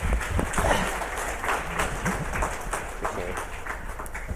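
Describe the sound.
Congregation at a Bible Baptist church applauding as a guest preacher is called up, a dense, steady wash of clapping that fills the whole clip at an even level.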